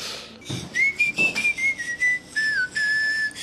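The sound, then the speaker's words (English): A person whistles the melody of a 1983 pop song alone. The tune is made of clear, sustained high notes that step up and down in pitch, with short breaks between phrases and no talking. “I thought the whistling was pretty spot on.”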